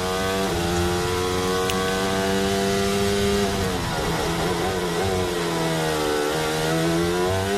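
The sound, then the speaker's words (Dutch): Formula 1 car engine heard onboard during a sprint qualifying lap, a loud continuous high-revving whine with rich harmonics that climb and drop back several times as the gears shift. “Zijn hij aan boord bij Lando Norris. Die is wel lekker begonnen aan zijn eerste ronde in SQ3.”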